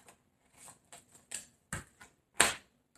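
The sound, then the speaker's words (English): Tarot cards are drawn from a deck in a Capricorn reading, giving a scattered series of crisp, papery flicks and snaps with quiet gaps between them. The loudest snaps come near the end. “Three cards for Capricorn, please. I need two. Okay, I need one more card.”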